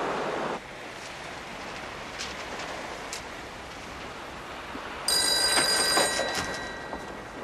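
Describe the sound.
A telephone bell begins ringing partway through, bright and loud above a steady, rushing background hiss that runs the whole time.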